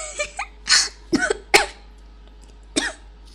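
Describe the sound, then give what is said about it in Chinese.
Harsh coughing from someone choking on their own saliva: several sharp, loud bursts in quick succession mixed with throat clearing, heard alone without speech. “啊，哦，不好意思，我太激动了，激动的我都要被自己口水呛死了”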